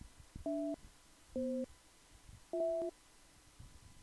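Telephone call tone ringing out while nobody answers: three short dual-tone beeps, evenly spaced and fairly faint, with quiet gaps between them and no voices.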